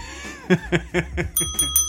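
A bell rung to mark a count being reached, giving a few bright metallic strikes whose high tones ring on steadily, preceded by a run of short rhythmic pulses.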